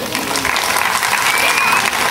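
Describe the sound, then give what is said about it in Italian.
Applause from an audience at a singing performance by two fathers with their family, dense steady clapping that stays loud and even from start to finish. “La famiglia Boniface, papà, un applauso.”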